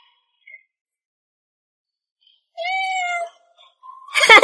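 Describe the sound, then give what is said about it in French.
A kitten meows once, a clear, moderately loud call with a bright, harmonic-rich tone lasting under a second. It comes after near silence and is followed by a brief, noisy rustle at the end. “C'est un chaton!”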